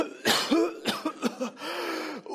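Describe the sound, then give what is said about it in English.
Fake coughing and spluttering by a person pretending to be ill: a few sharp, throaty voiced coughs in quick succession, then a drawn-out spluttering rasp, fairly loud and without speech. “and you're coughing and spluttering.”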